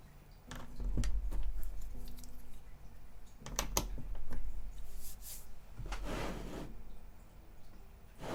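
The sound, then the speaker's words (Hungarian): Light wooden knocks, taps and rubbing as a model vehicle under construction is handled and set down on a table. The bumps come in scattered, irregular clusters with quiet gaps between them. “Próbálom úgy elhelyezni az asztalon egyébként a készülő modellt, hogy a második kamerán azért látszódjon, hogy éppen mit csinálok.”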